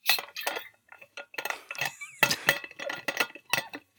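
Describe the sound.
A Hydro Flask water bottle being opened, with a string of light metallic clinks, ticks and scrapes in an irregular rhythm.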